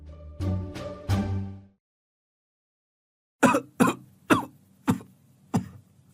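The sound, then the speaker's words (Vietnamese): An old man in a slum in Hai Phong coughs: a short burst of harsh coughs, a silent pause, then five separate sharp, hacking coughs, loud and alone. “Tiếng ho sù sụ đó”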